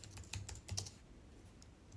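Typing a coupon code on a computer keyboard: a quick run of soft key clicks clusters in the first second, then the tapping thins out into faint, sparse keystrokes.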